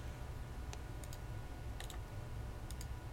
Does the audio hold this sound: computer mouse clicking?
yes